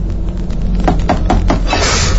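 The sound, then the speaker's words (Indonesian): Knocking on a bedroom door: several quick, evenly spaced raps in a short burst near the middle, set against a steady low background hum. “Ada yang mengetuk pintu kamarku.”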